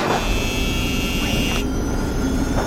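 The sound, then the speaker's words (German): An aircraft engine starts and takes off as a start button is pressed in a cockpit: a steady, broad whirring roar with a thin high whine that cuts off partway through while the rush carries on. “Hui, wir starten und heben ab von der Erde.”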